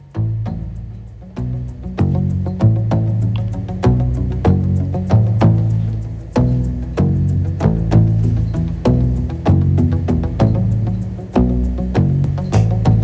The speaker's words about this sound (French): si cette percussion a un petit peu un son de chiotte, c'est parce qu'il est fabriqué avec des tuyaux en PVC